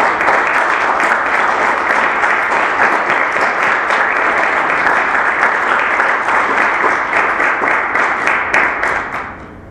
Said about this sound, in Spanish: Vamos a brindarles un aplauso para que escuchen.